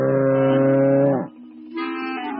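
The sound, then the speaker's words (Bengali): A huge, ill-tempered bull roaming a town lows loudly: one long, deep, steady call, a brief dip, then a second higher, brighter tone held to the end. “শহরের সবচেয়ে সাংঘাতিক জীবটির নাম হচ্ছে কালু, যে হল শিবের ষাঁড়।”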